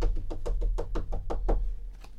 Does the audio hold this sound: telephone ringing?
no